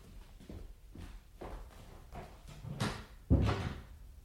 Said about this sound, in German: Und nun gehen Sie mal nach nebenan. Die Tür machen wir zu.